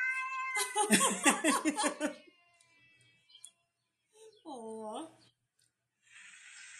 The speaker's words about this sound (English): That's that one cat that like yells and talks. That's a cat too.